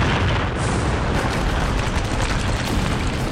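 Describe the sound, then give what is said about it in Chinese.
A battle scene of artillery shells and bullets flying overhead amid explosions: a dense, loud, unbroken roar of gunfire and blasts, with no single hit standing out. “敌人的子弹、炮弹从脑壳顶上飞过。”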